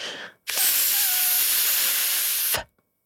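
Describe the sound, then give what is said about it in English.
A single forceful exhale pushed through pursed, V-shaped lips makes a loud, steady, breathy hiss that lasts about two seconds and stops abruptly, with no talking. “purse your lips to make a V shape. As you breathe out, focusing on the object of your choice, breathe out through the V shape of your lips to make a sound a bit like this.”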